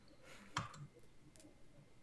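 A few faint, sharp mouse clicks on a Mac computer, brief isolated ticks separated by quiet gaps.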